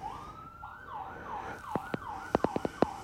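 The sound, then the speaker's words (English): An ambulance siren near a fire station wails in steady rising and falling cycles throughout. Several sharp knocks break in over the second half. “And apologize for what you're hearing. The sirens of the ambulance. I live right behind a fire station.”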